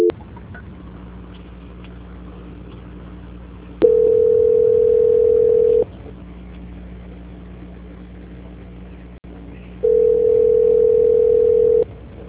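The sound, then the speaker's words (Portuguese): A telephone line gives a steady tone while a call is being transferred: two flat, even tones of about two seconds each, with a quiet low hum between them. “eu vou transferir a ligação. Transferência.”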